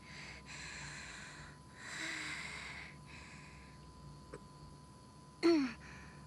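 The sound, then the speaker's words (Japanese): Slow, deep breath drawn in and let out to steady the nerves, a soft airy rush that swells and fades in a few faint waves, with no voices. “いや、落ち着いて。私深呼吸して。”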